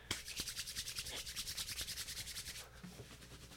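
Hands rub together quickly in many fast, evenly paced strokes, producing a soft, quiet swishing. The motion then changes to slower, gentler rubbing around the belly button.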